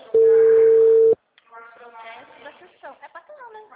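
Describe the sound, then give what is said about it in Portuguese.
A single steady ringback tone of an outgoing telephone call sounds for about a second, then stops, and a voice starts talking after a short gap. “Ah, então, tá chamando aqui.”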